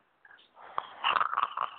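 A person snores while asleep: a soft breathy onset gives way to a louder, rattling, fluttering snort that lasts under two seconds.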